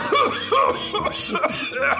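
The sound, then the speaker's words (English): A voice theatrically imitating the coughing of someone with emphysema, several short voiced hacking bursts in a regular, almost rhythmic pattern. “The girl with emphysema goes coughing.”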